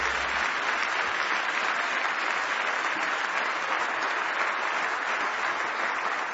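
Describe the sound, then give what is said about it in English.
A worship audience gives a big round of hand clapping. Dense, uniform applause from many hands runs unbroken and fairly loud for several seconds, a steady roar of claps without pauses or voices. “Give the Lord a great big hand clap.”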